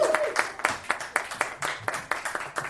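Audience clapping for a volunteer called up to draw the next prize winner, fairly faint, with sharp claps falling into a quick, even rhythm of about four per second.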